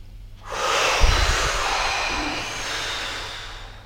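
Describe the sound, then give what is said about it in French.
A person breathing deeply during a guided breathing exercise, heard as one long, loud, airy rush of breath with no talking. “Allez, on va effectuer 3 SDN, on souffle d'abord. On inspire, on rassemble bien nos tensions.”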